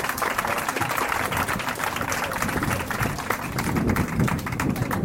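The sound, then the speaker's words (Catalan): Audience applause for the artists at a Festa Major event, dense and steady clapping that fills the whole stretch at an even, moderate loudness. “Ja podeu sortir aquí, que us aplaudeixin, que us vegin, perquè sou els mateixos artistes”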